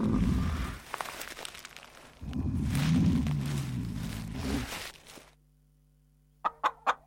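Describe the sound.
A hen clucks excitedly, a busy run of rustling, scratchy clucks for about five seconds, then a brief quiet before three short, sharp bursts close together.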